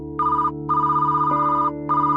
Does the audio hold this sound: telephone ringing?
yes